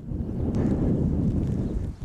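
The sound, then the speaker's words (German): Storm wind gusts through the small village of Breitbrunn at midday, a steady low roaring rush with microphone buffeting and no clear whistling tone or voices. “Die Ausläufer von Sturm Sabine pfeifen durch den kleinen Ort.”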